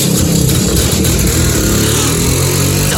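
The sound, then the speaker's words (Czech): A Jawa 250 motorcycle engine revving, a loud, rough, continuous mechanical roar that holds steady throughout with shifting low tones and no voices. “To je jasný, to je Pincek. Pincek, Java 250.”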